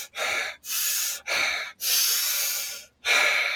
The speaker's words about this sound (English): breathe fast five times first.